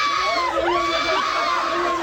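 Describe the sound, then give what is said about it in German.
Excited fans scream, many high-pitched voices shrieking together with sliding squeals that rise and fall, loud and continuous throughout. “Achtung, Achtung, Kreischalarm hier bei Hitradio Ohr.”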